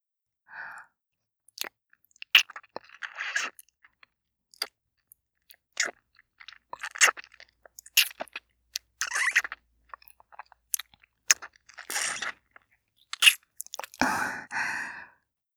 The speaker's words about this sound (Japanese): この飴をしゃぶる音、 聞いて。